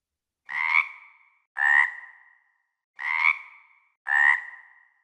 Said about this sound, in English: Was it a froggy? Yeah, spring is a time when certain kinds of frogs start coming out again.